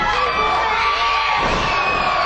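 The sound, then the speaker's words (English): A wrestling crowd cheers loudly and continuously, a dense roar of many voices with shouts and whoops rising out of it. “Slams Walker down, and the crowd is going nuts here.”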